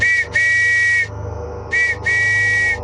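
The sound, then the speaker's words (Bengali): Shrill whistle blown by a police officer at a doorway, four loud, steady-pitched blasts in two pairs, each pair a short toot followed by a longer one, with nothing else heard. “Officer সঙ্গে সঙ্গে বাইরের দরজার কাছে গিয়ে pocket থেকে whistle বার করে বাজিয়ে দিলেন।”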